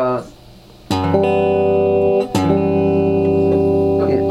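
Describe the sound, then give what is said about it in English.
A sustained F-sharp 7 flat 9 sus chord rings out with rich, steady harmonics. It is struck once, held, then struck again and left to ring, with no voices over it. “If you see an F-sharp 7 flat 9 sus chord, which might sound something like this”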